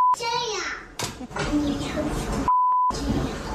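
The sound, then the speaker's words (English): A censor bleep masks a small boy's whispered swear word: a short steady beep, then a longer one, both cutting through his speech. “It's beeped, but he does say the full word.”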